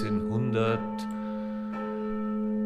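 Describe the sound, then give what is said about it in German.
Church bells ring from the old city tower in Straubing in a 1967 recording: a steady, humming ring, renewed by a couple of fresh strikes, with a brief voice at the start. “das Läuten vom Stadtturm in Straubing. Da hören wir jetzt einmal rein. Der Stadtturm ist ja Straubinger Wahrzeichen und die Glocken, glaube ich, müssten noch die Originalglocken sein”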